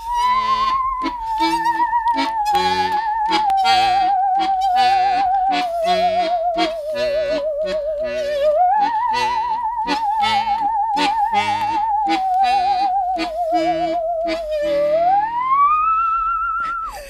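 An ordinary hand saw is bowed as a musical saw, giving an eerie, singing tone with wide vibrato that slides smoothly between pitches over a rhythmic plucked accompaniment, ending on a long upward glide.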